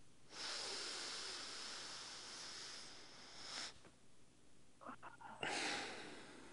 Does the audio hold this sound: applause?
no